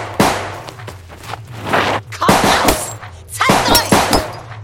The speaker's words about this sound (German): Das muss dann wohl die vermisste Museumswärterin sein. Wirklich gut schießen tut sie nicht.